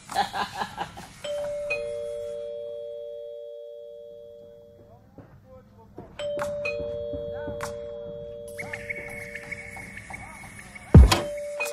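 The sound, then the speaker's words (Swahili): A doorbell rings with two-tone ding-dong chimes, sustained tones that fade slowly, sounding twice and then again at a higher pitch, with brief bursts of voices around the rings. “Ina maana usikii hii kengele, unataka nije tukukulabua.”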